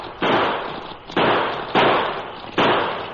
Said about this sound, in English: In answer, the cracksman let loose of the handbar and pulled a pocket model revolver. In quick succession, he triggered out six shots.